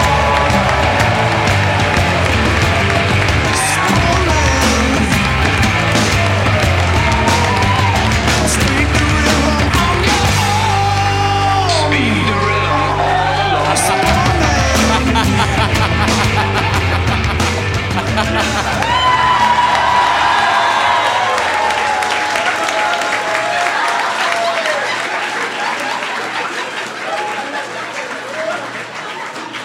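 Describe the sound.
An audience cheers, applauds and whoops in welcome at a live show, a loud, sustained mix of clapping, yells and shouts that holds steady for most of its length before fading away over the last few seconds.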